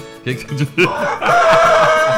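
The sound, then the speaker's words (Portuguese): A rooster crow follows a few short, choppy vocal bursts: a long, sustained, strained call that holds a steady pitch to the end. “Olha o galo, olha o galo divino.”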